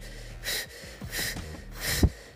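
Breath exhaled during an abdominal exercise done yoga-style, heard as three soft, airy bursts of breath spaced roughly evenly, with no talk over them.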